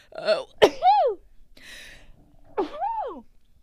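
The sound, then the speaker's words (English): A single sudden sneeze, with a quick intake of breath just before and a voiced, trailing tail right after. A breathy exhale and another short vocal sound follow, and the whole clip is fairly quiet. “oh God, that was like my first time sneezing on the podcast.”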